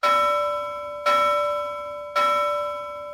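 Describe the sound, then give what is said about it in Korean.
A bell hanging beside a door is rung three times at even intervals. Each strike gives a bright, ringing tone that lingers and slowly decays before the next. “문 옆에는 종이 있었다. 도로시가 종을 울렸고 낭낭한 종소리가 울려 퍼졌다.”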